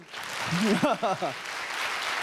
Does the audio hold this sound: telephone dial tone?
no